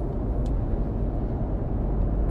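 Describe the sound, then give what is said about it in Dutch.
Steady, heavy rumble of trucks and cars passing on the A1 motorway in a funeral procession, a continuous low roar that holds evenly throughout with no voices. “Er is een hele stoet hier over de A1 gaande. Het is een rouwstoet of zo”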